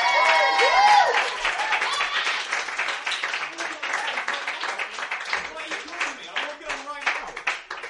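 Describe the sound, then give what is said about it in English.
Audience applause for a comedy act: dense, steady clapping from many hands that takes over after a voice at the start and carries on, thinning slightly toward the end. “Please give a big hand to Mr. Eddie F. Dre!”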